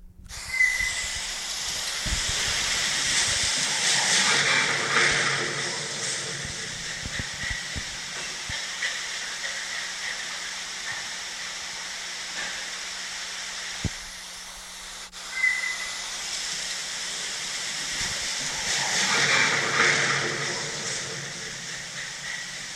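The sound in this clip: A field recording made in Cottage Grove, Oregon, in 2019 captures suspected Sasquatch sounds, called a stone wheel and frothing chops. A long, loud hissing, grinding rush swells and fades twice, with a few low knocks scattered through it.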